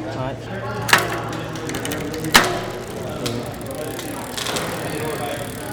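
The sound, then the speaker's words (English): A bicycle derailleur being adjusted while it fails to shift up to a higher gear: two sharp metallic clicks stand out over continuous soft mechanical ticking and ratcheting. “The bike derailleur refuses to switch to a higher gear.”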